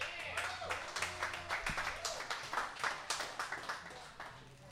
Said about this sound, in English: So put your hands together and welcome Brian Campbell.